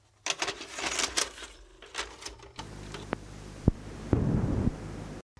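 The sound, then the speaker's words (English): A tape sound effect: fluttering mechanical clatter and whir, then a steadier hiss broken by a few sharp clicks, ending with an abrupt cutoff. “Tape sound effect.”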